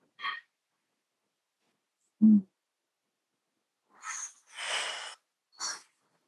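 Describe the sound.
Breathing-exercise breaths, an inhale through the nose and a strong exhale through the lips, come as a few soft airy rushes of breath after scattered short, faint sniffs and a low puff, with no talking.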